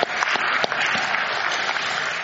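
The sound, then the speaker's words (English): A church audience applauds during worship, with dense, even clapping that starts with a few sharper claps and holds at a steady level for about two seconds. “So give yourself a round of applause.”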